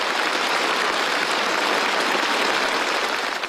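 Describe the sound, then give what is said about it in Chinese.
Warm, sustained applause fills a joint conference of the Chinese Academy of Sciences and Chinese Academy of Engineering academicians: dense, even clapping at steady loudness throughout, easing slightly at the very end. “在热烈的掌声中，习近平发表重要讲话。”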